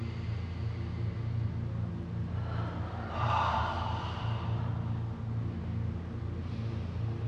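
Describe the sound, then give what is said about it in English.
A slow, deep breath during a guided breathing exercise: a soft, airy inhale swells midway over a steady low hum, with a fainter breath near the end. “Okay, take another breath.”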